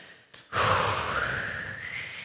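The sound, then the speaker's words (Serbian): A long, full exhale pushing all the air out during a diaphragm breathing exercise begins abruptly after a faint short breath and holds as a steady, loud, breathy hiss that edges slightly higher toward the end. “skroz izdahni zrak”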